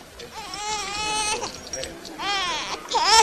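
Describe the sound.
A newborn baby, found in a river, cries in a few loud, high wailing bursts with a wavering, harmonic tone and short breaks between them.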